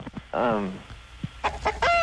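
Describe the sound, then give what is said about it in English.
Chicken clucking and squawking: a strong drawn-out call near the start, then a few shorter, sharper calls that end in a high, squeaky cry. “Chicken. Chicken. Sure.”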